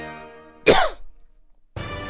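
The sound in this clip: A dog coughs once in a short, harsh, raspy burst, set between brief voiced sounds before and after.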